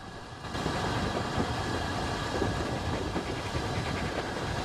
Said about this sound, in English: But they're rewarded with little more than a fleeting glimpse of the train as it thunders past.